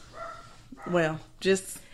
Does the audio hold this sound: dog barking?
yes

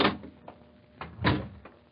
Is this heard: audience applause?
no

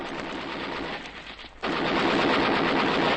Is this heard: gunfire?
yes

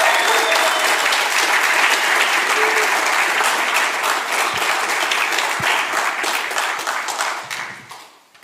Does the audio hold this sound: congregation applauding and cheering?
yes

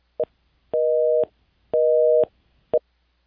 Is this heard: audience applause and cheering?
no

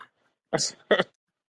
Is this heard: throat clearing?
yes

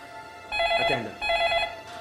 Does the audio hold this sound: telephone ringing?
yes

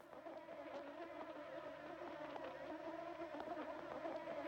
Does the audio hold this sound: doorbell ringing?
no

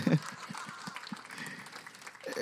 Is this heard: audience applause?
yes

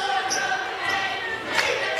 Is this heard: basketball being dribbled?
yes

